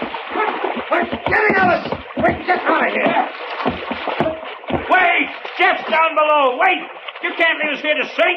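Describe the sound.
Splashing and sloshing water as a small skiff is pushed over a boat's rail into the water, with several loud bursts of splash under people talking loudly throughout.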